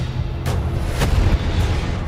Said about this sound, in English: Fire the gun!